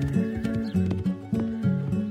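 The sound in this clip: Horse hooves clip-clop steadily as a rider rides off, a quick run of hollow knocks over sustained tuneful tones, with no voices.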